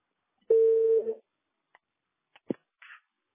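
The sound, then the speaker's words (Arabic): A telephone busy tone: one steady, mid-pitched beep lasting under a second, followed by a few faint, brief clicks. “عذرا رقم الهاتف المطلوب مشغول حاليا”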